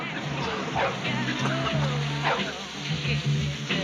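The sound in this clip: A dog that has just been hit by a car whimpers in a film scene, giving a few short, wavering whines over a low, steady background.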